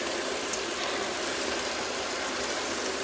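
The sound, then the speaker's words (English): Dry pasta sizzles as it is sautéed in a pan where chicken was cooked before, giving a steady, dense hiss that stays even and continuous for the whole stretch with no talk over it. “you can hear the sizzling, that it's even a bigger sound than it was with the chicken, because now you're sauteing dry pasta.”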